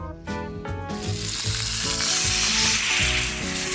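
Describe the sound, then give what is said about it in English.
Vidalia onions sweat in a little olive oil in a pan, giving a steady, soft sizzle that runs through the whole clip with no speech. “I'm gonna cook the onions down, sweat it a little bit. Little olive oil.”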